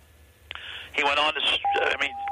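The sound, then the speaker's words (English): A beep on a phone line cuts in over ongoing speech: a single steady, mid-pitched electronic tone that starts partway through and holds to the end, sounding alongside the talk. “Yeah, sorry about the beeping. Just carry on. Just carry on. It's a problem we're having here”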